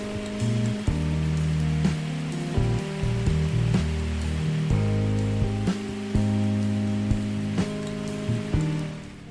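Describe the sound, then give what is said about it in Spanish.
Steady rain hiss mixed with soft jazz chords and melody, a rainy-night café ambience, continuous and even in level throughout, with no talking. “la música de fondo que estáis escuchando, es un vídeo de YouTube que se llama La atmósfera de una cafetería en un día lluvioso por la noche, música jazz y sonido de lluvia.”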